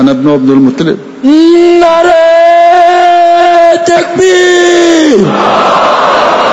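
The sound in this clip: A crowd chants the takbir in unison, rising into one long, loud, sustained shout. Just before it there is a short burst of voices, and afterwards the shout breaks off into a noisy crowd roar.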